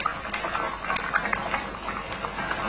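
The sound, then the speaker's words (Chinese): Steady bubbling of water simmering in a pot of chicken pieces for a braised chicken dish, a dense, continuous burbling hiss with small pops, moderately loud throughout with no voices. “加入清水，放入鸡块，完成面炕鸡的最后一步。”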